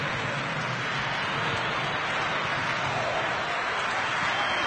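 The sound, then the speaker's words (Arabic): Football crowd cheering inside a stadium during a match, a dense, unbroken roar of many voices that stays loud and even throughout. “الجماهير تتفاعل والجماهير تزيد من تشجيعات.”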